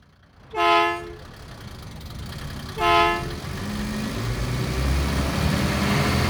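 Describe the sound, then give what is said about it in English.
Bus horn honking twice in a children's English lesson: two short, loud tonal toots a couple of seconds apart, followed by a rumbling engine noise that steadily grows. “Honk the horn.”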